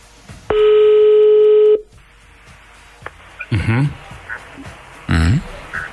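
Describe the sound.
Telephone tone on a call placed to a radio listener: one steady, buzzy ring lasting over a second and stopping abruptly, followed by short bursts of voices talking.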